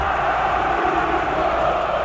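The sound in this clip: São Paulo football supporters fill a stadium with a steady, murmuring crowd roar while awaiting confirmation of a goal, a continuous dense hum with no sharp peaks.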